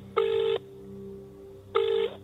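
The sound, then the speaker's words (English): Phone keypad tones as a number is dialed: two steady electronic beeps, each under half a second, separated by a pause over a faint background hum. “Just punch it in on my phone here.”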